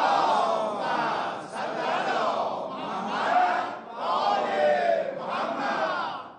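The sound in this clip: Crowd recites salawat in unison, many voices rising together in loud, surging phrases that repeat several times with brief dips between them.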